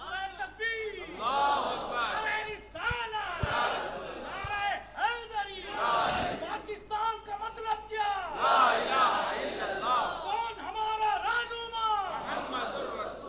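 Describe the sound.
A crowd at a Pakistani political rally shouts a slogan in response to a leader's call. Many voices rise and fall in loud, ragged waves of shouting and whooping, with overlapping chatter between the bursts.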